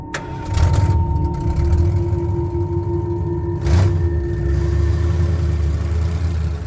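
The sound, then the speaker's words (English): A vehicle driving slowly along a street of white clapboard houses: a low, steady engine hum with a faint whine, broken by two brief, louder whooshing bursts. “A vehicle drives slowly along a street of white, clapboard houses.”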